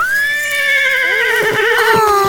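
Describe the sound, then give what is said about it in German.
Horses in a paddock, with one loud, sustained whinny that quavers and wavers in pitch for over two seconds, clear and without talk. “Oh, guck mal. Pferde. Ganz in der Nähe stehen Pferde auf einer Koppel.”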